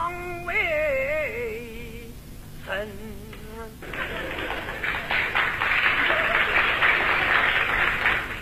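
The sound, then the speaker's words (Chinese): Sparse audience applause at a comedy show breaks out after a short sung phrase and continues steadily to the end as a dense patter of clapping. “鼓掌的人不多呀、啊，鼓掌的人都是南方人”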